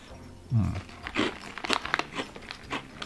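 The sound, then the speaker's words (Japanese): Crunchy bites of a lemon-flavoured squid tempura snack from a Hiroshima mix pack made by an Onomichi manufacturer. A few crisp crunches and crackles come at moderate volume, separated by short pauses. “イカ天、イカ天。うん。イカ天、イカ天。すげえイカ天。うん。パリッパリ。”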